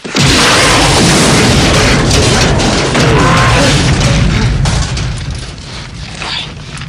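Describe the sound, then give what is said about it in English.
A stricken helicopter gunship explodes in a Rambo film: a massive, loud roaring blast with dense crackling debris that sustains for several seconds before gradually easing into a lower rumble. “They desert the stricken gunship, which explodes as Rambo runs for it.”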